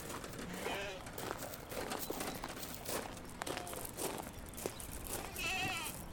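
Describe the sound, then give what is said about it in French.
Farm animals bleat as they follow people carrying hay. A few faint bleats rise over soft shuffling and rustling noise. “Et là, en fait, les animaux, ils nous suivent tous parce qu'il y a du foin. Et le foin, c'est leur nourriture en fait.”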